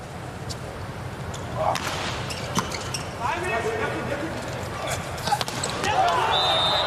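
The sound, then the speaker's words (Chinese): A volleyball serve during a match involving the Turkish team gives a brief, sharp ball strike above steady crowd noise in the arena, while a commentator talks over it. “22号巴伊拉姆的发球”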